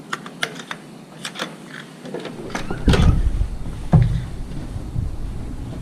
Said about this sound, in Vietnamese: Đây, chìa khóa ở đây. Okay, cuối cùng như thế là chìa khóa rồi.